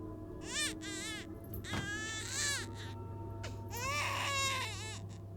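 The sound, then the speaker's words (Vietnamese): A child cries in a dark corridor: several drawn-out, wavering sobbing wails, some louder and some fainter, with short gaps between them and a steady low hum underneath. “Đó tựa như là tiếng khóc của trẻ con. Tiếng khóc ngằn ngặt vang lên trong hành lang tối, nghe đến rùng mình rợn người.”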